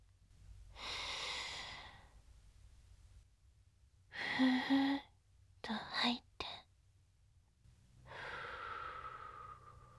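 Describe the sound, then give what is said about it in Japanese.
Soft, airy breaths drawn in through the nose or mouth: a few slow, hissing inhalations separated by quiet pauses, faint and breathy. “鼻からでも口からでもいいでちゅよ。息を吸って吸って”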